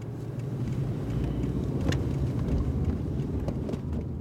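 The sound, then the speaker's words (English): A car drives around Firestone, Colorado, with a steady low road and engine rumble that holds at a fairly even level throughout. A few faint ticks and rattles sit on top, with no voices. “I'm driving around Firestone with anti-oil and gas activist Shane Davis.”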